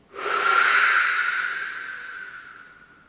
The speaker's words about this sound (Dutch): En we ademen in vanuit die buik.